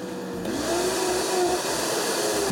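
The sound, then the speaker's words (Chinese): A juicer motor drives a spinning spiral blade, putting out a loud, steady, continuous whirring drone with a faint tonal whine riding on top and no pauses. “一旦启动这飞刀螺旋一转，叫你想停都停不下来，听见没？稳定美妙的马达声，仿佛到了方程式赛车的赛道旁，”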